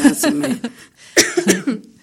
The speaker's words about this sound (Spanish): Ya le dio tos.